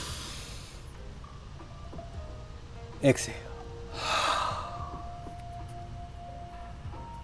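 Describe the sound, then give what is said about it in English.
A deep inhale during a guided breathing exercise: one short, airy rush of breath that swells and fades over a soft, steady background. “Let's go one inhale.”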